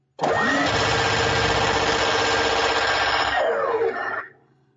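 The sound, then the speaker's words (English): Minigun in a video game spinning up: a loud, dense mechanical whirring roar that climbs in pitch as it starts, holds steady for several seconds, then winds down and fades. “I will spin up the mini gun so we can go into rapid fire.”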